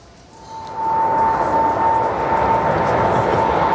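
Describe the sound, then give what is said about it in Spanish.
Airplane engine noise swells in after about a second into a loud, steady roar with a sustained high whine running through it, holding evenly to the end. “Por eso nosotros hemos querido coger el avión”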